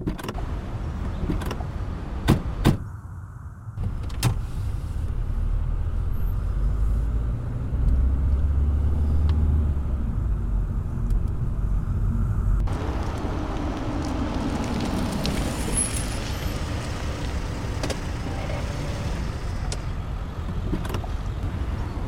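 In a radio drama, a car drives off. A few sharp clicks come first, then a steady engine rumble runs through the rest, changing in tone partway through.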